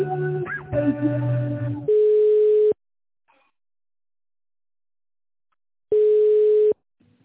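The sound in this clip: Telephone line tones sound while a call is transferred to a manager: a short burst of warbling tones, then two steady mid-pitched tones of under a second each, separated by about three seconds of silence.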